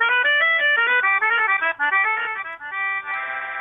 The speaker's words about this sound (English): There's several names for it, but there's not, I mean, some people call it the melodica, melody horn is another name.